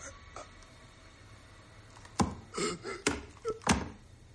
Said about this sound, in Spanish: El policía toma el arma lentamente y la deja sobre la mesa.